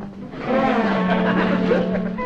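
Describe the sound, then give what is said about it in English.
A car driving off, its engine holding a steady low droning hum for about two seconds. “Let's all jump in the car and get over there before this whole deal goes down the drain.”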